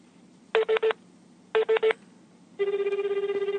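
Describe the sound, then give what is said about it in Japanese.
A telephone number being dialed: six keypad tones in two quick groups of three, followed by a steady, pulsing ringing tone as the call goes through. “普通に番号の方にかけてます。”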